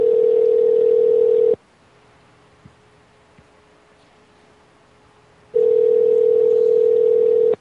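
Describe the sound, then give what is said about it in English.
A telephone ringback tone sounds as a call rings through: a long, steady buzzing tone, a long silent pause, then the same loud tone returns. “The phones are ringing.”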